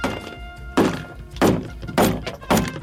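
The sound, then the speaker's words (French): Repeated blows strike a Nintendo Switch screen: five heavy, dull thuds land at roughly even intervals, each with a short ringing tail, and no voices talk over them. “Ah, la Switch, on vous avez entendu, ouais, le petit crépitement là, c'est que la Switch a fini par céder.”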